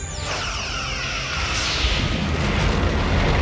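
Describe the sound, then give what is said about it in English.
Alien attack ship exploding in Star Trek after Worf's phaser fire, a loud, sustained roaring blast with deep rumble and a hissing wash. “The moment that Worf fires on the ship and it explodes”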